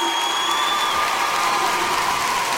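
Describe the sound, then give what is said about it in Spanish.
An audience applauds a singer at a bolero performance with dense, continuous clapping that stays level for the whole stretch, with no speech over it. “Aplauso”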